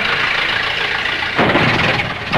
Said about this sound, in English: To his left, an automobile approaches under a stone arch with an army officer in uniform at the wheel.